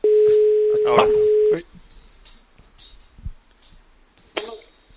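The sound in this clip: A telephone line's steady dial tone, heard as a call is placed from a radio sports desk, holds for about a second and a half with a cough over it, then cuts off. Faint murmurs and a brief voice follow.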